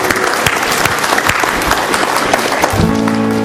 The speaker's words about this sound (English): Let's give God a round of applause.